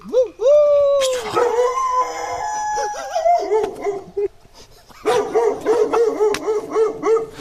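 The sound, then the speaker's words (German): A dog at a villa garden with a warning sign on the fence howls and yelps in drawn-out, wavering tones, then breaks into many quick, rhythmic barks. “Du musstest ja unbestimmt den Hund provozieren, ne? Auf einmal, man hört ihn bellen, aber man sieht ihn nicht.”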